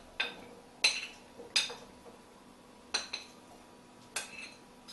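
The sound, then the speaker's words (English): Potatoes being added into a dish make several sharp clinks and knocks, spaced irregularly over an otherwise quiet background. “So what you want to do now is you want to add all the potatoes into a dish.”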